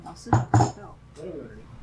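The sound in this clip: A teapot is opened with two sharp ceramic clinks of the lid in quick succession, followed by quiet talking.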